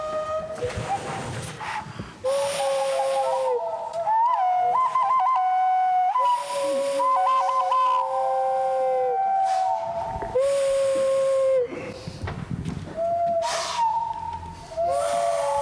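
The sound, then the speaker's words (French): Whistles blown close to the microphone: loud, shrill, sustained blasts with warbling trills, several tones overlapping at times, broken by brief gaps of breathy hiss between bursts. “peut-être que tu peux rapprocher le micro que tu as d'un des sifflets.”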